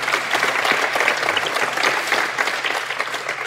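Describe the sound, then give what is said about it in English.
Audience applause rings out for a guest at a live science-fiction talk event, a dense, steady wash of clapping that holds at full strength for a few seconds with no voices standing out. “So, Star Talk audience, give it up for Andy Weir.”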